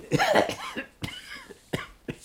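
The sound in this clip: A person coughs: one harsh, raspy burst at the start, then a few shorter, sharper coughs spaced apart, with no talking.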